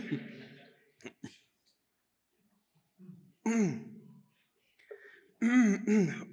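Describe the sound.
Coughing and throat clearing after a drink went down the wrong way, a few short, quiet bursts separated by pauses.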